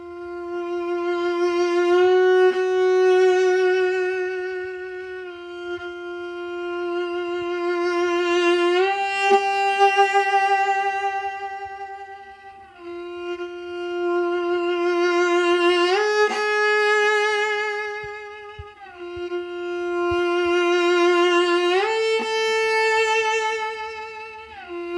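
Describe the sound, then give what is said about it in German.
Long bowed notes on a string instrument, four sustained tones each swelling in a crescendo as a vibrato develops and widens toward the end of the note, rich and singing, played alone with no voices. “Was Sie jetzt gehört haben, ist eine Kombination aus Crescendo mit Vibrato-Entwicklung, Bogen im Crescendo intensiver werden und die Zielnote so”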